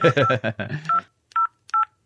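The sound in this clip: A voice speaks briefly, then a telephone dialing tone sounds twice: two short, clear, evenly pitched beeps separated by a brief pause.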